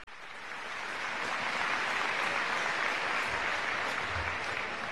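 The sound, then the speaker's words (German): Crowd applause for La Colla Castellera de Vilafranca del Penedès after a human tower display: thick, continuous clapping that swells within the first second and then holds steady and loud. “Un aplauso para ellos.”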